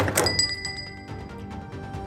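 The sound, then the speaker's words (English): A shop door bell jingles as someone walks out: a bright tinkling burst at the start, followed by fainter, scattered jingles that fade away. “as Rev walks out, you hear the bell of the door ring behind you”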